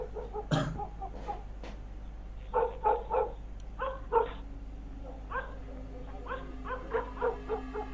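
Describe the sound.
Neighbours' dogs bark in the distance, in many short, faint yaps and woofs that come in uneven clusters over a steady low hum.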